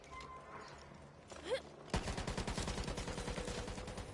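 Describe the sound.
Pistol gunfire in the video game Black4Blood. After about two seconds of quieter game sounds, loud shots burst in and carry on as a fast, dense volley to the end.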